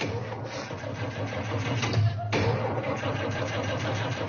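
A car engine starts up and runs on a first day of driving: a steady, mid-pitched mechanical hum with a short dip and jolt near the middle before it settles again.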